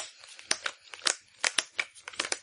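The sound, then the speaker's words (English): A deck of Magic: The Gathering cards is shuffled by hand, producing many quick, crisp papery flicks and riffles in uneven bursts, fairly quiet and with no talk over them. “I'm having trouble doing a toss shuffle myself.”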